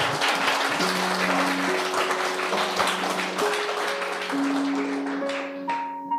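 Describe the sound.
Congregation clapping for the Lord at the close of a church service: a dense, steady wash of many hands applauding, with sustained musical tones ringing underneath throughout.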